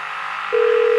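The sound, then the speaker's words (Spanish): A telephone call being placed: after a short quiet hiss, a single steady, mid-pitched telephone tone starts halfway through and holds at constant loudness to the end. “Vamos a ver si Tommy contesta.”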